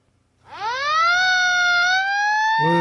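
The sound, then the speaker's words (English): A fire truck siren wails loud and alone, sweeping up in pitch and then holding a steady high tone, with a deeper tone joining just at the end. “That is a fire truck.”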